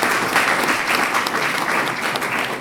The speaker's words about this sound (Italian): Quindi un altro applauso per Riccardo, perché è molto importante.